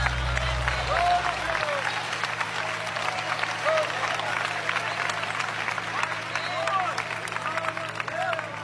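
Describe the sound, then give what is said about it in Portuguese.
An audience clapping hands in praise during a religious service: steady, dense applause throughout, with faint voices underneath. “Pode louvar a Deus com as palmas.”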